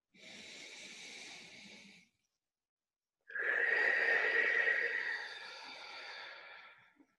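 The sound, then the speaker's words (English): Two drawn-out breaths make up a slow, deep breath: a soft, airy breath of about two seconds, a silent pause, then a longer, louder, rushing breath that gradually fades away. “Take a breath.”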